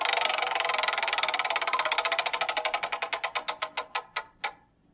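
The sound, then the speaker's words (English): A category prize wheel spins on a quiz game, its clicker ticking rapidly at first, then slowing steadily as the clicks spread farther apart, until the wheel stops. No one talks. “All right, so we're gonna spin the wheel and get you a category. All right, so let's spin the wheel.”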